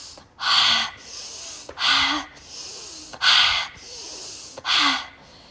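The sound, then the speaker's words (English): Forceful nasal breathing during a breathing exercise: four loud, rushing breath bursts at a steady rhythm, separated by short pauses, with no talking. “you breathe in really hard, and you can either breathe out through your nose again, or out through the mouth is what I do. You go in through the nose,”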